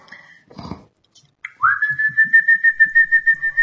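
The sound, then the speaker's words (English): Wake-up whistle blown in a guest house: a quick upward swoop that settles into a loud, high, sustained tone with rapid, regular pulsing, after a brief short tone and soft rustling at the start. “you are given a wake-up whistle.”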